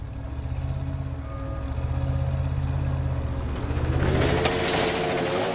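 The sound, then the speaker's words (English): A pickup truck drives along a sunny forest road with a low, layered engine hum. The drone holds fairly steady, then its tones shift and climb in pitch toward the end as the engine works harder. “A pickup drives in sunshine along the forest road.”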